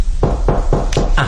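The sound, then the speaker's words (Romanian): Knocking on a door, a series of about five firm, evenly spaced raps in quick succession with no voices. “E destul să binevoiți să rămâne cu mine până când se va ciocăni la ușa aceasta.”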